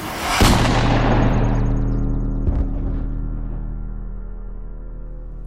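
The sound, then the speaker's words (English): A large gun fires with one massive, sharp crack that swells into a long, rumbling roar and slowly dies away. “The familiar feeling of heat, of air expanding, then contracting, and the massive crack that this gun makes as it fires.”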